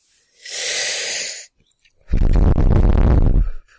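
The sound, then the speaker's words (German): A deep breath in and out: a hissing inhale lasting about a second, a short pause, then a longer, fuller exhale with a breathy rumble, both loud and close. “Erstmal tief einatmen und dann tief ausatmen.”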